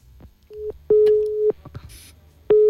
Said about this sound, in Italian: È caduta la linea, purtroppo. Riproviamo a chiamare